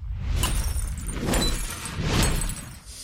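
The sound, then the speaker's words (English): A short bumper for the hardware segment of the All About Android show: a noisy stinger of crashing, shattering bursts and whooshes with a clattering, jangling texture. “That hardware bumper, every time I see it now, I just want to cry.”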